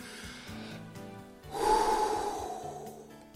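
A person takes a long, audible breath, a soft rushing inhale that swells midway and slowly fades, faint overall over a quiet tonal background.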